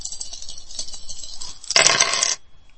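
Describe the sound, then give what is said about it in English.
Dice rolled in a video dice game: a faint, thin patter of high ticks, then a loud, bright clattering burst lasting about half a second before it cuts off to near quiet. “Hold dice 4, hold dice 5, third roll.”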